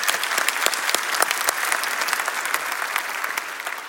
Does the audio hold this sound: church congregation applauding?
yes